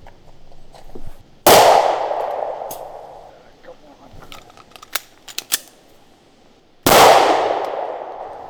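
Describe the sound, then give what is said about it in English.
Two loud gunshots at a makeshift woodland shooting range on Pennsylvania's Allegheny Plateau. Each blast is sharp and followed by a long ringing decay, and a few small clicks and ticks fill the pause between them. “this episode features gunshots, like a lot of them, and right away.”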